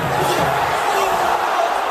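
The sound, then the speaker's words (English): A crowd at Subaru Park sighs at the Philadelphia Union's MLS home opener against the Chicago Fire as a late shot off a corner hits the post. Massed voices form a loud, broad, steady murmur for about two seconds. “That was the sound of Subaru Park letting out a sigh as off a corner in the game's final minutes, a Union player put it off the post.”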